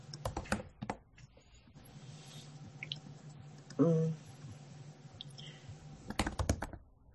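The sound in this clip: Key clicks from typing on a computer keyboard while entering brainstormed words into a chat, with quick runs of light taps at the start and the end and a softer stretch between.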